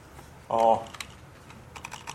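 Soft computer-keyboard typing while code is being written: scattered light key clicks following a brief tonal burst near the start.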